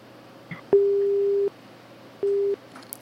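Telephone tones on a call that will not connect, two steady beeps of the same pitch, the first longer than the second, over a low background hiss.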